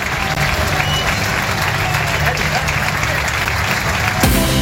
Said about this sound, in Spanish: Bienvenida oficial de los aficionados a Sergio Canales.